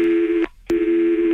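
Two telephone tones sound as a call is transferred. Each is a steady mid-pitched beep of about half a second, and a short silence separates them.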